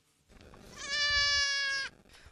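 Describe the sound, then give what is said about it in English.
A goat on the back lawn of a family home in Kildare lets out one loud, drawn-out bleat lasting about a second, tonal and wavering, over an otherwise quiet background. “I want you to meet my goats, Aslan, Geronimo, Satanta and Darby.”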